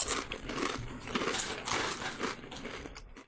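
All-dressed potato chips are crunched in a faint, continuous run of dry, crackly bites.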